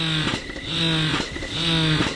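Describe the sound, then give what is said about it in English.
An electric breast pump runs in a breast-milk donor's home, its motor humming steadily through a repeating suction cycle of roughly one second, each cycle marked by a brief pulse before the hum resumes. No voices are heard. “While I met with her, she assembled one of her pumps and started it up.”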